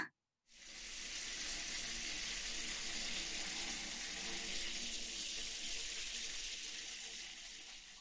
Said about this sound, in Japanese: はい、きれいきれい終わったよ。お湯ザバーするよ。